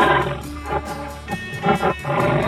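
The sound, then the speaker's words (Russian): A tiger roars and snarls in several rough, low, growling bursts, loud and harsh, with no talk. “Вон он, тигр. Огрызается на нас, зрителей.”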